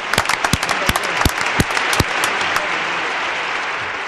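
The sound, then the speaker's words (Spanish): Applause for a guest: loud, distinct handclaps crackle densely at first, then blend into a steady, even wash of clapping that carries on to the end. “Un aplauso a Tuti, por favor.”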